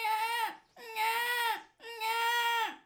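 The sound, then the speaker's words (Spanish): A baby cries as it emerges from a split peach: three drawn-out, high, tonal wails, each holding steady and then dropping in pitch at its end, separated by short pauses, with no other sounds. “Cuando de pronto se partió el melocotón y de su interior salió un bebé.”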